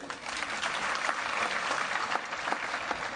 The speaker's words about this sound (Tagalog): Ayan, dumadami na pumapalakpak.